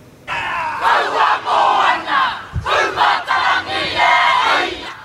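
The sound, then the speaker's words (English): Haka performed by New Zealand Defence Force members as a traditional welcome for the Duke and Duchess of Sussex: a forceful group of male voices shouting rhythmic chants in a series of loud, punchy bursts. “The haka being performed by members of the New Zealand Defence Force.”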